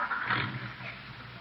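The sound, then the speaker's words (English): A car pulling away: a rough, steady engine roar lasting about a second and a half, a little louder at first and easing slightly, with no talk. “She's driving away.”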